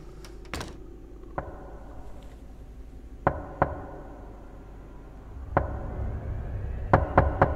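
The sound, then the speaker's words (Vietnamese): Knocking on a room door comes as several sharp, dry raps spread irregularly, some single and some in quick pairs or triplets, with a faint low rumble between them and no voices. “thì có tiếng gõ cửa phòng vang lên.”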